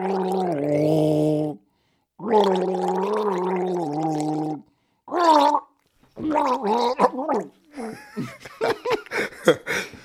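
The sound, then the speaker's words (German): A person gargling the melody of Silent Night after a deep sip of tea, producing bubbly, wavering sung tones in a few long phrases split by pauses, then breaking into short choppy gurgling bursts toward the end. “ich nehme jetzt hier mal einen tiefen Schluck Tee und dann gurgel ich das erste Lied.”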